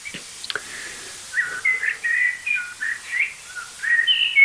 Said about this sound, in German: Also das sind jetzt gerade Singamseln. Aber im Hintergrund sollte gleich Singdrossel schimpfen.